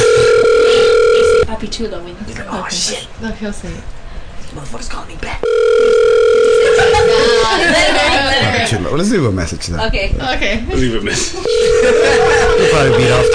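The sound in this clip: A telephone ringback tone sounds during a call, with three long, steady rings and people talking and chuckling loudly in the gaps between them.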